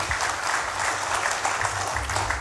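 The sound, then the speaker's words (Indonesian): An audience at a morning event applauds three guest speakers with thick, steady clapping that rolls on evenly, moderately loud from start to finish. “Langsung saja, ini tepuk tangannya harus lebih gemuruh dari yang pertama. Tepuk tangan untuk 3 orang narasumber kita pada pagi hari ini.”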